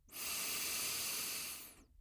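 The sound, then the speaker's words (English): One long, slow, deep breath is drawn in as a soft airy hiss that rises quickly, holds steady for about a second and a half, then fades away. “And one more deep breath in with me.”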